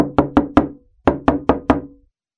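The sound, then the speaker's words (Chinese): Urgent knocking on a door: two quick bursts of four sharp, loud raps each, separated by a short pause, with nothing else heard. “第二天早上，又有人在急急地敲着门。”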